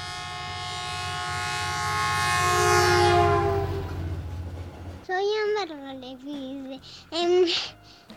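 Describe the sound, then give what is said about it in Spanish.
A train rumbling along and sounding a long, rich horn that swells to a peak and then fades, followed by a few short, wavering tones. “truenan trenes sin parar. Trenes truenan, vienen y van, truenan trenes en la ciudad.”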